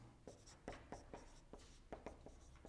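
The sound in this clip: Marker strokes scratch across a board in many short, quick bursts with brief gaps between them, each stroke a dry, papery squeak.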